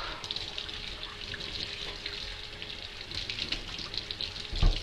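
Tap water runs over squash halves as they are rinsed, making a steady, fluctuating splash and hiss with a louder thump of water near the end.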